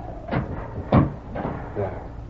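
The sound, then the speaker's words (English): A door being closed against blowing wind inside a house gives a few rattling, thumping bursts over a steady rushing background. The second thump is the sharpest and loudest. “Wait till I close this door.”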